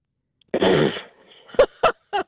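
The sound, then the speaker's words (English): A blown raspberry, a bemused snort: a buzzing, sputtering half-second blast, followed by a few short, sharp puffs of breath. “That was what I'd call a bemused snort. Yeah. Yeah, the old raspberry.”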